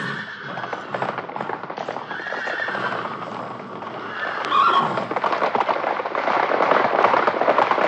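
Horses set off at a brisk, extended trot, their hooves clip-clopping in a rapid, continuous rhythm with a whinny among the hoofbeats, growing louder in the second half.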